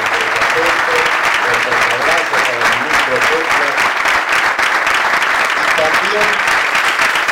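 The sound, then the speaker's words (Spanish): Audience applause at a public speech event for a hospital tender, loud, thick and unbroken for over seven seconds, with voices and cheers mixed into the clapping. “desde acá le enviamos un aplauso para Axel”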